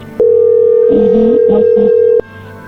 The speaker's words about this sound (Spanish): A ver, entró ahí la llamada, contéstale tú.